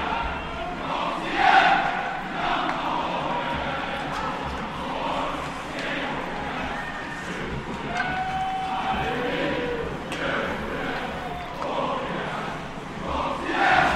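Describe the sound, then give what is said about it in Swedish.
Crowd noise from spectators at a team sports match: a steady, dense murmur of many voices that runs through the whole stretch and swells louder in a few places. “Och så lite publik på det också, om man hör den.”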